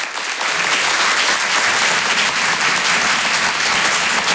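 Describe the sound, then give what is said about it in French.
Dense, steady applause from a comedy club audience at Rire et Chanson Comedy Club greets a comedian, loud and unbroken for the whole stretch with no voices rising above the clapping. “Faites du bruit, s'il vous plaît, pour Avril sur Rire et Chanson.”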